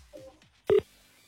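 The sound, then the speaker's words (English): A single short keypad tone from a telephone as a number is dialed, a clear steady beep standing alone in near-silence. “so then let's just hope that we are going to call somebody whose phone is on”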